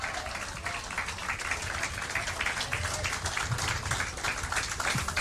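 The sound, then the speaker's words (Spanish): An audience applauds at a bilingual Spanish-English church service, giving a loud ovation to God. The clapping is dense and sustained and builds slightly, with no talk over it. “Déselo fuerte el aplauso que es para el Rey de Reyes y Señor de”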